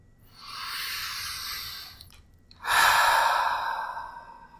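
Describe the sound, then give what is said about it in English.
A deep breath drawn in through the nose, heard as two long, soft, airy rushes of breath separated by a brief pause, with no talk. “Take another deep breath in through your nose.”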